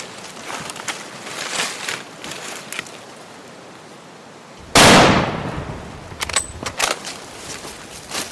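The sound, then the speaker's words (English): A single gunshot kills a bull: one sharp, loud bang with a long, fading noisy tail cuts through quieter low background noise, and a few light clicks follow. “The shot. The bull's agitated surprise to find death inside of him.”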